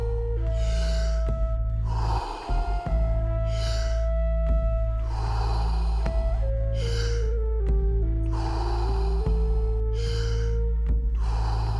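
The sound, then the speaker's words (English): Deep, rapid breathing in and out during a breathing exercise, with many breaths following one another without pause over low, sustained music tones. “fully in and letting go. Just keep on going. No pause between inhalation and exhalation.”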